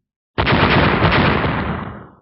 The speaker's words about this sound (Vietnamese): Những tiếng nổ vang lên liên tiếp